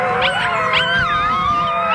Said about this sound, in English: At 7 weeks old, the pups have started howling, making an important milestone.